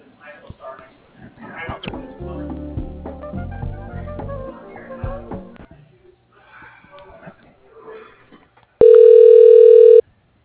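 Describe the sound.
A telephone line rings while a call is being transferred, heard as a single loud, steady ringback tone lasting about a second. Voices talk before it.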